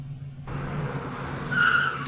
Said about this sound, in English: I slow to a stop. A big, fat, shining chrome bumper parked in front of me.